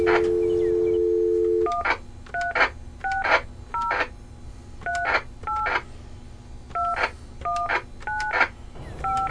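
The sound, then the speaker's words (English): Squelch noise on a 2-meter ham radio 10 feet from a Budgetel 102 telephone being dialed: a steady dial tone, then many short paired dialing beeps, each with a crackly static burst, over a constant low hiss. “when I dial my Budgetel 102 telephone, it will cause a noise on my 2-meter ham radio, which is 10 feet away from me. As you dial, you hear the squelch unlock on the radio, and it sounds like this.”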